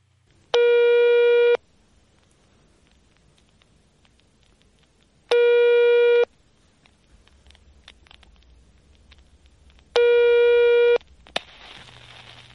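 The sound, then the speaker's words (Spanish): Outgoing telephone call tones: three steady, buzzy tone bursts, each about a second long and roughly four seconds apart, with near silence between them. A faint click and a soft hiss follow at the end. “Vamos a llamar a Ramón Vargas.”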